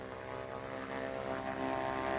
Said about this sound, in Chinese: 飞机轻盈的起飞，在空中平稳盘旋，慢慢消失在视野外，向远方飞去。